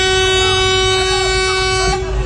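A vehicle horn blares in one long, loud, sustained blast during a violent fight. Its tone holds a steady pitch for the whole clip.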